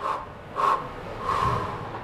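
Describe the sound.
Deep breathing from an athlete at the start line of an ice track: a few breathy puffs, the last a longer, louder exhale, with no talk.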